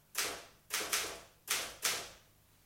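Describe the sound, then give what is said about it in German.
Four sharp, separate key strikes on a Remington typewriter, typed as a quick type sample, each with a brief decaying tail and no voices. “Sagen Sie, ist das hier Mr. Landgrens Schreibmaschine? Ja, eine Remington.”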